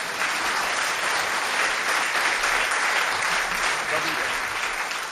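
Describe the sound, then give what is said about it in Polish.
Steady audience applause after a live performance: dense, continuous clapping that holds an even loudness for the whole five seconds without a break. “Brawa dla Kuby.”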